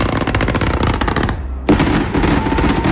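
Fireworks fired line by line from a firing console during a 42-line display: loud, dense bursts of rapid popping and crackling, with a short lull midway before the barrage resumes just as strongly.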